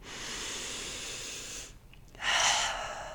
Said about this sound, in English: I just wanted to start off by taking a really nice deep breath.